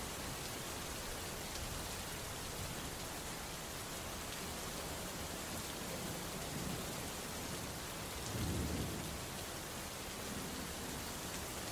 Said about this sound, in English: The wind picking up, which carried the rain more horizontally than vertically.